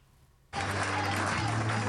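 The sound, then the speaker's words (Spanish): Cheering and applause burst out suddenly after a brief quiet moment at a Spanish party's Génova headquarters as a regional leader arrives after an election win, then hold as a loud, dense roar of clapping and voices. “Entre vítores y aplausos. Así es como Génova ha recibido a Moreno tras ganar unas elecciones sin una mayoría para gobernar”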